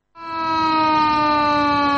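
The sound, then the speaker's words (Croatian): An alarm siren signals the start of a protest performance by environmental groups outside Montenegro's parliament building: a loud, steady, harmonic-rich tone that swells in quickly and holds at a constant pitch. “Sirena za uzbunu označila je početak performansa grupe ekoloških nevladinih organizacija i Mansa”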